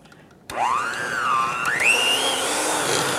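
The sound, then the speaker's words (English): An electric hand mixer whirs into a thick dough, starting abruptly with a steady motor whine that climbs in pitch and wavers as the beaters work. “And now I have to mix this stuff together. I'll see if my hand mixer can handle it.”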